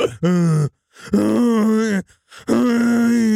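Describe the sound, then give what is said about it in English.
Loud, drawn-out groaning comes from someone inside a toilet stall, three long, low, strained moans separated by brief pauses. “The groaning started in the stall again.”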